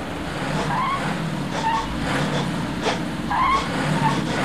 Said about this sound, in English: Newton's driving the Nova van badly with Ben next to him.